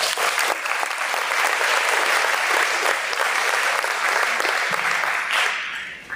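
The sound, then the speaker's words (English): Audience applause welcomes a speaker before a morning presentation: dense, even clapping that holds steady for several seconds, then thins and fades out at the close. “Thanks for being with us today, and let's give Glenn a warm welcome.”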